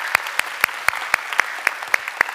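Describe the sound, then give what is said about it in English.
Applause from a church audience comes as a steady run of evenly spaced, sharp claps, crisp and fairly loud, with no talk over it. “So if you would take a moment, let's put our hands together. Welcome in our online community.”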